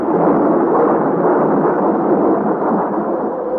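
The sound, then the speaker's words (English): Thunder rolls through a storm at sea aboard a sailing vessel, amid lightning and hail: a loud, continuous, deep rumbling roar that holds steady throughout without distinct separate cracks. “And now to the fearful claps of thunder are added dazzling flashes of lightning such as I have never seen before.”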